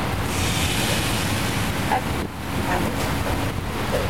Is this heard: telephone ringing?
no